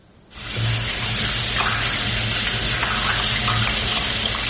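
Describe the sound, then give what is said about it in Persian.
Water runs steadily from an open tap during handwashing. After a brief quiet start it becomes a loud, continuous, even rush that keeps a constant level to the end, with no voices. “این ویدیویی است که برای آموزش درست شستن دست‌ها پخش شد. آنچه بیش از همه مورد توجه بینندگانش قرار گرفت، باز بودن شیر آب و مصرف بی‌رویه آب بود.”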